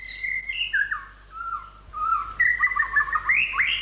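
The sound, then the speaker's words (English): A white-rumped shama sings clear, whistled phrases that leap up and down in pitch, with short pauses between runs of bright, varied notes. “the song of the white-rumped shama”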